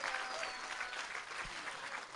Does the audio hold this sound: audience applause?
yes